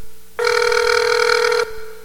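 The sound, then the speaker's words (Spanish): Telephone ringing: one loud, steady electronic ring with a bright, buzzy tone that lasts a little over a second and then cuts off sharply, leaving a faint background. “En este momento no puedo contestar tu llamada.”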